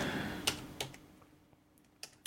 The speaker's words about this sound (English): And just so that you all know where they currently are at, let me just type in...